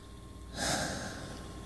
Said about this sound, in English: Let's take a moment. Let's take a few breaths.